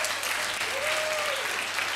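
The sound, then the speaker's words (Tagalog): Applause for the Lord fills a church service, an audience clapping in a dense, even patter that stays at a moderate level throughout. “Palakpakan ulit natin si Lord.”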